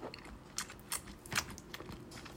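Spicy curry being eaten, with a few soft, wet chewing bites rising above a steady background hiss. No voices are heard.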